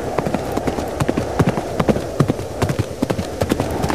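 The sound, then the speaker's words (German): Hoofbeats of a robot horse being ridden in the mountains: many sharp clip-clop impacts in a steady, fast rhythm over a constant background noise. “Er reitet auf einem Roboterpferd.”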